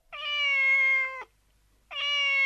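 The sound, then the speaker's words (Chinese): A cat meows twice, both meows loud, drawn-out and tonal. A short pause separates them, and the second is cut off at the end. “看到还在赖床的小猫咪，到现在才起床呢。”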